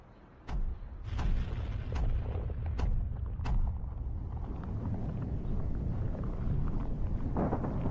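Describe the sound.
Building demolition by explosive charges: five sharp bangs go off one after another, then a long, heavy, low rumble as the structure collapses, with steady wind noise throughout.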